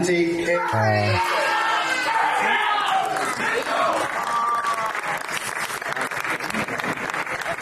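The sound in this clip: A crowd cheers at a competition's place announcement: a man's loud yell opens, then continuous clapping, whoops and shouts carry on at a steady level.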